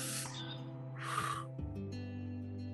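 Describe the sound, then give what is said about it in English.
A deep breath drawn in during a guided breathing exercise, a short breathy rush of air heard over steady, sustained music that continues underneath. “Big breath in right now. Big deep breath all the way to the bottom of your tummy.”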